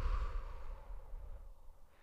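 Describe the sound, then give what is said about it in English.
A single deep breath, a soft airy rush that is loudest at the start and fades gradually over about two seconds, with no talk. “Just breathe with me. Just, okay, I'm just going to take an inhale. And out.”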